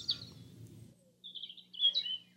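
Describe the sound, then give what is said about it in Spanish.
Bird chirping in a quick series of high, thin twittering calls, quiet and alone, following a stretch of low background noise. “el cuerpo de Comisagual había desaparecido y adornando el cielo apareció volando un lindísimo pájaro”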